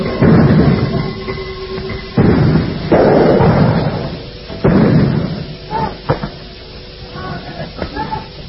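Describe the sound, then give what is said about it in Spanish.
Tear gas canisters and firearm gunshots go off during a street clash at a barricade. A few loud, heavy bangs with hissing tails are followed by several sharper, fainter pops. “mientras las bombas de gases lacrimógenos comienzan a acercarnos. Se escuchan también algunos disparos de armas de fuego.”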